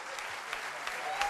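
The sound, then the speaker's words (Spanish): Audience applause at a funk concert as the band members are introduced: a brief, steady, faint patter of clapping hands with a few slightly sharper claps. “Fortísimo aplauso, señor.”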